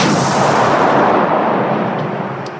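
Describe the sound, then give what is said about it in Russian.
A ship's cannon broadside fires as one loud, dense, roaring rumble that holds steady for over two seconds and then trails off abruptly. “Корабль вздрогнул, и раздался жуткий грохот. Это был наш залп.”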